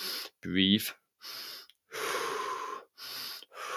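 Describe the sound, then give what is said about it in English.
Slow, deep meditative breathing: several long, airy inhales and exhales separated by short silent pauses, after a brief voiced sound at the start. “breathe like that, and just allow us to think about the task ahead.”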